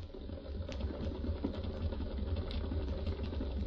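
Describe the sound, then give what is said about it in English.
A homemade electric pump is switched on and runs with a steady, low mechanical hum. The drone holds an even level throughout, with no voices. “Inject it? No, pump it. I built this pump especially for it.”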